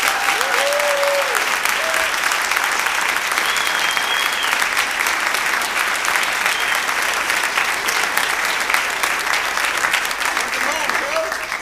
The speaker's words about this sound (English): Let's give her a big hand of welcome home today.